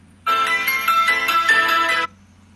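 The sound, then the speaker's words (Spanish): A telephone ringtone signals an incoming call: one bright electronic burst about two seconds long, steady and loud, heard alone. “Ahorita estoy atendiendo la llamada en WhatsApp, permítame a la gente que está llamando por teléfono.”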